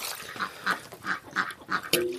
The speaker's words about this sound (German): Ja, das ist der Erpel, der hier so einen Rabatz macht.